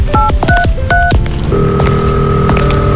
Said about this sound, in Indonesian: Telepon ibu ah.